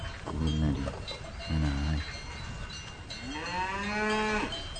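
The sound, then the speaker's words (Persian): A cow mooing as it is pulled into a house: three low, throaty moos, the last one longer and rising, over a constant noisy background. “دختری نگاه میکنه که دم در خونهی داره یه گاوی رو به دنبال خودش میکشه و به درون خونه میبره”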